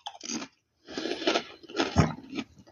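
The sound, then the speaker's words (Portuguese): Chewing on potato salad: a short burst of munching, a brief pause, then a longer stretch of moist, crunchy mastication with several louder peaks, close and moderately loud, with no talk. “Eu peguei uma, uma batata lisa é, ensalada, eu tô comendo agora.”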